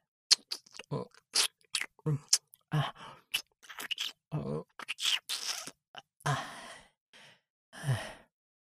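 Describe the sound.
Crunchy food is chewed close up in many crisp, sharp bites and crackles that come in uneven bursts with short pauses, joined by soft breathy sighs.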